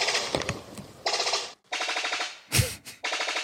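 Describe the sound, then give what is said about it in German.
Song of a ribbon-tailed astrapia, a bird of paradise: a fast, machine-gun-like rattle of staccato pulses, delivered in a few separate bursts with short gaps between them. “Zum Beispiel der Schmalschwanz-Paradieshopf-Gesang. Also Martin und ich hatten uns da verschiedene mitgebracht. Ich habe einfach mal einen jetzt dabei. Der hörte sich nämlich so ein bisschen an wie so ein Maschinengewehr.”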